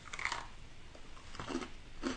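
Biting and chewing into a sweet treat topped with light, weightless rainbow sprinkle flakes. A few crisp, soft crunches are spread across the moment, with no talking.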